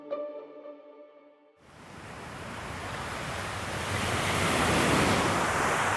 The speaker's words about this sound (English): So if the audio sounds a little bit different today, that's because I'm standing on the beach.